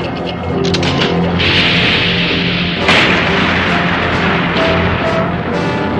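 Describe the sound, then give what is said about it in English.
An earthquake rumbles in a 1986 animated film: a loud, continuous roaring and crashing din with booming bursts, one stronger burst near the middle, and no voices. “A second more, and they would have been destroyed by the quake!”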